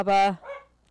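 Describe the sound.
A small dog barks in the background, giving one or two short, sharp barks while a voice briefly speaks.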